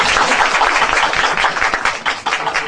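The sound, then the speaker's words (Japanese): Applause from an audience welcoming a guest to a gathering in Nagasaki. It is a dense, steady wash of clapping that stays loud for nearly three seconds, with no voices over it. “もし大きな拍手で”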